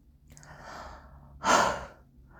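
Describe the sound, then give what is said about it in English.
Someone catching their breath breathes heavily and quietly, a softer drawn breath followed by one louder, rushing exhale. “Thank you for letting me catch my breath.”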